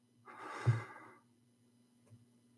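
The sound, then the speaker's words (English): One slow, deep breath is drawn in and let out, swelling to a soft peak and then fading. A faint puff of breath follows later, with no talk. “Let's take that moment to take that one deep breath. Let's begin. In,”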